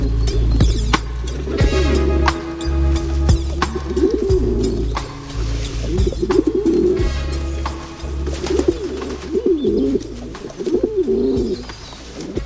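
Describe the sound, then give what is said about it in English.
Doves cooing at a school, their soft, low, rounded calls repeating in a steady series throughout, fairly loud and unaccompanied by talk. “At the school, the doves coo and preen.”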